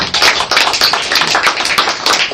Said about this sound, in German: Ich bin wirklich dankbar für den Applaus.